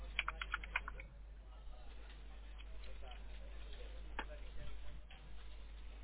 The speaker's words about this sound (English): Okay, that didn't come up. I may have typed it wrong.